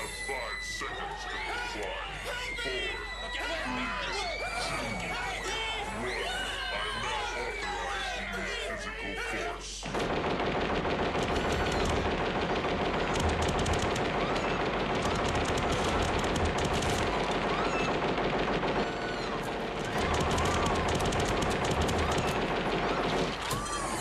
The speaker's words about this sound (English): You get shot for like over a minute, I think.